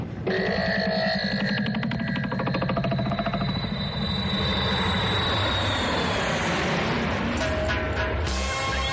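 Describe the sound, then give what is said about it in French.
Airplane engines drone in flight with a steady, loud, unbroken roar and a thin high whine layered over it, holding constant for the whole stretch. “Messieurs, bienvenue à bord du vol DC-001. Enfin, si on atterrit sans trop de flammes, notre destination est Kinshasa au Congo.”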